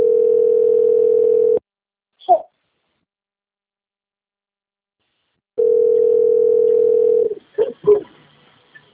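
A steady, low-pitched telephone tone plays while a call is being transferred: two long, even tones separated by a few seconds of silence, with short faint bursts of sound after each tone.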